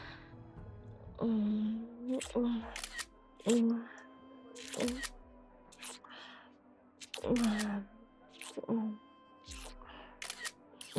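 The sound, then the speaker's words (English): Crisp camera shutter clicks as a cuddling couple takes a selfie, several sharp clicks spaced a few seconds apart, with a voice talking quietly between them. “Here, cuddle up close. Let's get a selfie of our makeout.”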